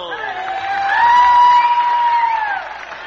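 A Grand Ole Opry audience cheers and applauds as a country music guest singer is welcomed, with whoops and shouts over clapping that swell to a peak, then ease off toward the end.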